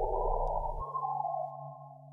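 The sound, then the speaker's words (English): A synthesized tone representing a sunspot, generated by software scanning solar magnetic maps: a buzzy low layer under a steady mid-pitched hum cuts out after under a second, leaving smooth sustained tones that slowly fade. “I made a software synthesizer that scans through the map and generates a sound like this for each sunspot.”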